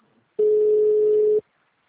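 A single steady telephone tone, heard while a call to a city hall is being transferred; one flat, mid-pitched beep lasting about a second, alone with no voices.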